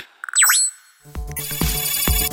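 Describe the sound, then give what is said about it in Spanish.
Electronic telephone ringtone signalling an incoming call: a few quick beeps and a bright swooping chime, then a loud, rhythmic pattern of sustained synthetic tones over regular low thumps. “Llamada entrante.”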